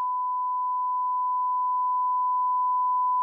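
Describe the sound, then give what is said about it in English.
A censor bleep rings out as one steady, unbroken mid-pitched sine tone, loud and alone, holding at the same level from start to finish. “Hey, Gara, go back and bleep that.”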